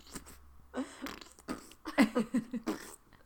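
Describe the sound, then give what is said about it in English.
A voice imitates a queef with a string of short, breathy, sputtering puffs of air, some spaced apart and several bunched together near the end. “nice queef. Nice queef.”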